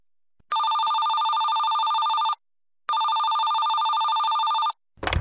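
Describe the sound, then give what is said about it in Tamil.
A telephone rings in two long, loud, steady bell-like bursts separated by a short silence, and a brief low sound follows at the end. “யாரோ phone பண்றாங்கம்மா.”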